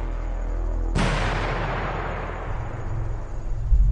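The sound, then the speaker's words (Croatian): A single unusual explosion on the road to Belgrade bursts about a second in as a sharp, loud boom. It fades into a long, rumbling tail over steady low background noise. “neobična eksplozija na putu za Beograd”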